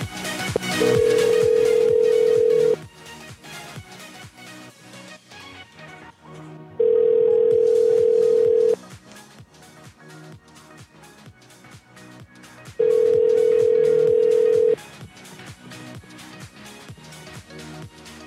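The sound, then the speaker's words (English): Telephone ringback tone while a call waits to be answered: three long, steady, mid-pitched tones, each about two seconds, with pauses between them, all over continuous background music. “Come on, please. Answer the phone.”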